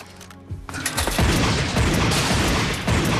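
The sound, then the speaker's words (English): Handgun shots fired at a man: a few sharp, loud cracks arriving close together that blur into a dense, sustained roar of noise. “suddenly pulls a gun from inside his pocket and fires off some shots at the man.”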